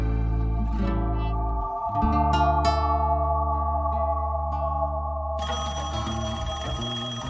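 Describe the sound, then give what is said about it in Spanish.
Telephone bell ringing during a radio station segment, short bright bursts early on over steady sustained tones that continue at an even level. “En la Volche Radio suena el teléfono rojo.”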